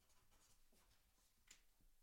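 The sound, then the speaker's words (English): A pen or pencil scratching faintly as notes are written by hand, with soft, irregular strokes at a low level. “can I write it down?”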